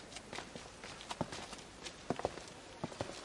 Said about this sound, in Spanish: Cristian los mira serio y se marcha.